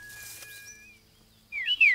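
Birds chirping: faint thin whistled tones, then a short burst of high, bright chirps at the end.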